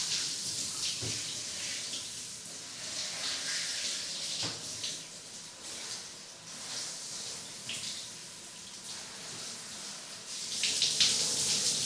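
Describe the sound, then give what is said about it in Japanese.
Tap water running over hair during a rinse at a hair wash: a steady hissing, splashing flow with small surges, growing louder in the final seconds, with no talking. “じゃあ流しますね。”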